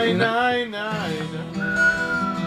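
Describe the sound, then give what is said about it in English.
A person whistles a short melodic phrase, a clear sustained tone that shifts in pitch and holds a steadier note toward the end, moderately loud and with no talk over it. “a little whistling.”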